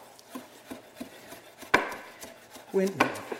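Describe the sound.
A knife chops vegetables on a board in a cooking scene from the TV series Cascabel: many steady, evenly spaced taps, ending in a louder clatter and scrape.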